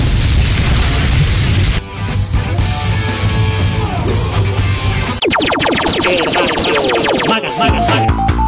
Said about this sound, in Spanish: Jutsu de fuego.